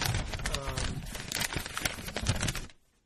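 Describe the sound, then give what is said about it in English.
Paper being handled, giving a dense run of crinkling and rustling for under three seconds before it stops abruptly into quiet. “I use paper.”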